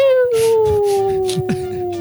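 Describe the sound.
A voice imitates the cartoon coyote falling sound: one sustained whistle-like tone that glides slowly and steadily downward in pitch for about two seconds, with faint rustles and soft thumps underneath.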